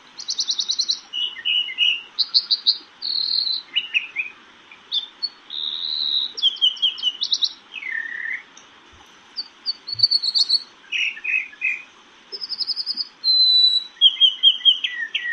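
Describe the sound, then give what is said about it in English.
American dipper (water ouzel) song: many bright, high-pitched chirps, whistles and rapid trilled phrases delivered in quick separate bursts with short gaps, loud and alone. “The mystery sound is the American dipper, also called the water ouzel.”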